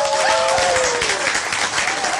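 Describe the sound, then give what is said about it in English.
Audience applause rises as a round of it is given, with thick, continuous clapping that stays loud and even from start to finish. “And as we mentioned, Dr. Provis, we must give him a round of applause.”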